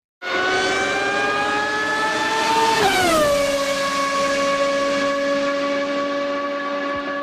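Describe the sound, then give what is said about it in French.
A Formula 1 racing car engine at a Canadian Grand Prix open day, a loud sustained high-pitched scream that drops sharply in pitch partway through and then holds steady, heard alone. “le son qui réjouit des amateurs de course automobile et en particulier de Formule 1”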